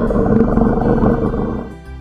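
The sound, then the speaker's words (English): A lion roars in pain after hunters in a forest tie it up with a net and ropes. The deep, rough roar is sustained and loud, then fades slightly at the end. “They catch the lion. They tie him up with a net and ropes. The lion is crying.”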